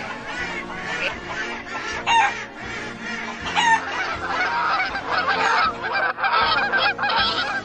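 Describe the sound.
Geese honking in a dense farmyard clamor mixed with other poultry calls, a continuous loud chatter of overlapping honks and squawks with a few sharper peaks.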